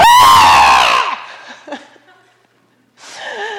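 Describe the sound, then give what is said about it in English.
A voice imitates the guttural, joyful scream of a woman in her mid-60s who had never been able to really see: one loud, strained vocal cry about a second long, its pitch dropping at the end, followed by faint murmurs before talk resumes. “you hear this sound that is just pure guttural stuff and pure joy. It kind of sounded like,”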